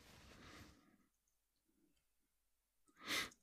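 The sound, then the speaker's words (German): A quiz-game buzzer button is pressed, giving one sharp, loud click near the end after a breathy rush of noise at the start and a stretch of near silence. “Ich habe jetzt den Buzzer gedrückt.”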